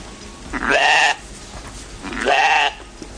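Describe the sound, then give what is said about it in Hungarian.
Goats bleat on a hilltop, giving two drawn-out, wavering bleats separated by a short pause over a steady outdoor background hiss. “Hegytetőn találtuk magunkat, és ilyen kedélyes kecskék vesznek körbe bennünket.”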